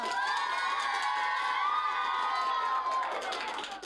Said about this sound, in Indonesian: Sekali lagi dong, berikan tepuk tangan yang meriah untuk Vio.